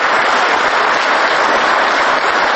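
Loud, dense applause from a crowd of many clapping hands, continuous and steady from start to end with no talk.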